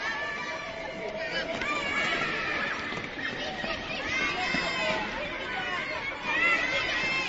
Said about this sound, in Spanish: Pues este es el sonido de la algarabía que se producía esta mañana en la Plaza de la Quintana con decenas de niños y niñas haciendo un parón en su excursión por Santiago y jugando al sol de esta jornada